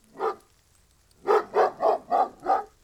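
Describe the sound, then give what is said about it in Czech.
Dog barking: six sharp barks, one on its own and then, after a pause, five more in a steady, even rhythm. They are loud and clear with no talk. “To je pes pana Vrchoty.”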